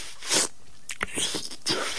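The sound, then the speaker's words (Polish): Someone eating ice cream: a few short, wet biting and slurping bursts with brief quiet gaps between them, loud and close. “Już chłodniej wam od samego słuchania, jak ktoś je lody?”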